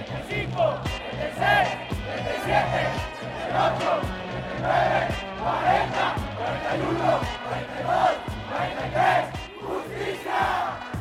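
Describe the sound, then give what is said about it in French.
A protest crowd in Mexico honoring the 43 missing students of Ayotzinapa chants a countdown to 43 in loud unison, with each number voiced in a steady rhythmic pulse of many voices. “Et là, c'est le décompte jusqu'à 43 pour rendre hommage aux 43 disparus.”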